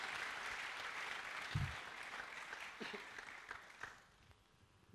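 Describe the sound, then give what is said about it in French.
A church audience applauds during a Sunday service, a steady wash of clapping that holds at a low level and fades out near the end. “Clap on for them, clap on for them. Acclamez pour eux.”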